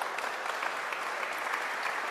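Audience applause at a business school gathering: a soft, even wash of many hands clapping, steady and fairly faint for about two seconds with no voices.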